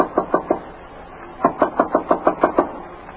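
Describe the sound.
Knocking on a hotel room door: three sharp raps, a pause of about a second, then a steady run of eight more knocks at the same even pace.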